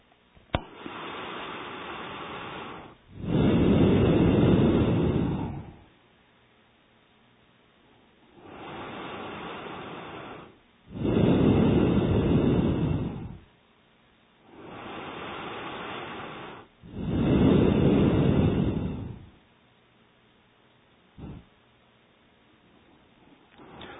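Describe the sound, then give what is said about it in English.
Breathing in and out through both nostrils during meditation: three strong, rushing breaths alternating with two softer ones, each lasting a few seconds with quiet pauses between, and no talking. “second round. Each round has three breathing. So then from both nostrils,”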